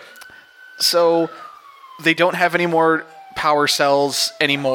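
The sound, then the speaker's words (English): A police car siren sounds in the city as a faint, sustained wailing tone that glides slowly lower. People talk over it in the foreground. “It's the sound of the police.”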